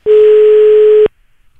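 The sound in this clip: A telephone line signal sounds while a call is being placed: a single loud, steady tone that holds for about a second, then cuts off abruptly into near silence.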